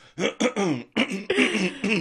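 A person with a tickle in the throat clears it repeatedly in a string of voiced, rasping bursts, loud and close, with short pauses between them.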